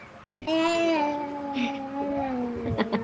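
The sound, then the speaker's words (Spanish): A baby singing and babbling: drawn-out, pitched cooing with a wavering, gently gliding melody, ending with a few short vocal bursts. “¿Estás cantando? ¿Estabas cantando ahorita? ¡Qué lindo, mi bebé! ¿Cómo canta?”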